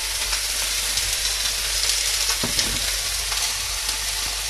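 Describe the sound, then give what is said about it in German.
Meat for goulash searing in a hot pan gives a steady, dense sizzle with fine crackling. A few light clicks from stirring come through across the continuous frying. “braten wir das mal schön an.”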